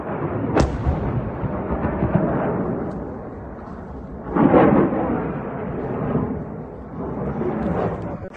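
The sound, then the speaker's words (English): Deep rumbling explosions from U.S. airstrikes on an Iranian-linked weapons depot at Al-Qaim in Iraq's western Anbar province: a few heavy booms, including a sharp burst early and a strong blast midway, over continuous low rumble. “we are getting in the first images of U.S. strikes on Syria and Iraq. This is from Al-Qaim in Iraq's western Anbar province.”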